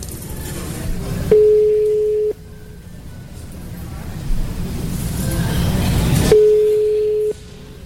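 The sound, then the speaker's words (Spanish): A call is placed to a home phone number, and two long, steady ringing tones sound on the line with a few seconds of low background noise between them. “Vamos a marcar a casa, por favorcito.”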